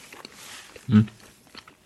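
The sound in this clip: A bite into a vintage sardine: soft chewing sounds with one fuller, louder bite in the middle, then faint mastication.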